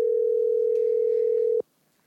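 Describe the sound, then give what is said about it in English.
A telephone dial tone sounds while a call is being placed: a steady, single-pitched hum held for about a second and a half, then cut off abruptly into silence. “I'm going to call them right now. Can you hear it?”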